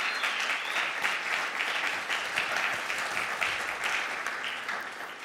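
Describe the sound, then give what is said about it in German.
Dense audience applause greets a guest called to the front at a Christian gathering, many hands clapping at an even, sustained loudness for about five seconds before easing slightly at the end. “Oder könnt ihr ruhig mal applaudieren.”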